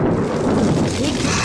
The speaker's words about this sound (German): ich habe noch nie erlebt, dass die See so brüllt und tobt.